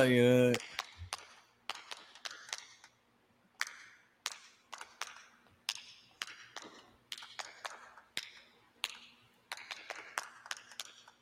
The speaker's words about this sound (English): Jay White clapping. He's making fun of the fans